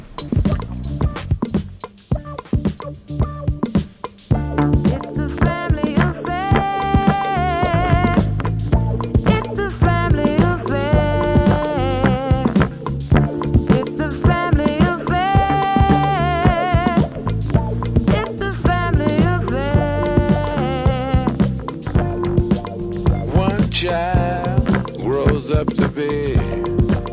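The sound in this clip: A song used as the closing theme of a stage show plays loudly and continuously, with a driving band groove and sung vocals over a steady beat throughout.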